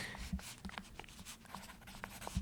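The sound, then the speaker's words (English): Someone writes an answer down on paper during a trivia game, with faint, irregular scratches and small taps that come in quick strokes. “Okay, I'm writing mine down, guys.”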